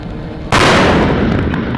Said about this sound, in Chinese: 陆军第72集团军某旅组织火力分队开展多弹种全流程实兵实弹射击演练